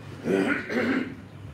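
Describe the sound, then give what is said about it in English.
A person clearing their throat and coughing: two rough, gravelly throaty bursts in quick succession, moderately loud, followed by quiet. “I'm just going to have a good cough and I'll be back.”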